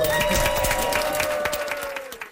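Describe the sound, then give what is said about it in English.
A crew and cast on a film set applaud as a shoot wraps: a short burst of many hands clapping, busy and steady, easing slightly in level toward the end. “Do we have a round of applause?”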